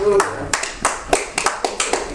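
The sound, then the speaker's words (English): Church audience clapping, sharp claps landing in a loose, fairly quick rhythm after a brief voice at the start. “Come on. Give God a clap offer.”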